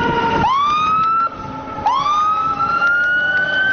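An ambulance siren wails in the middle of the Gereshk bazaar, loud and steady, sweeping sharply upward twice and then climbing slowly in pitch after each sweep, with no talk.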